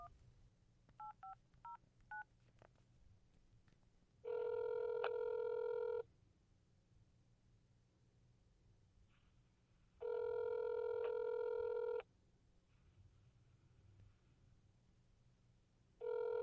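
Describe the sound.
Dialing a telephone: four short keypad tones beep in quick succession, then a steady ringing tone sounds in long bursts separated by silent gaps, with the third burst cut off at the end.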